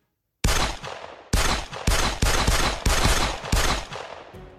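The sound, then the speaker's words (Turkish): Gunfire sound effect for a gangland shooting in Ankara: several loud, booming bursts of shots in quick succession, each fading in a ringing decay before the next burst hits. “Birazdan Ankara'da silahlar patlayacak.”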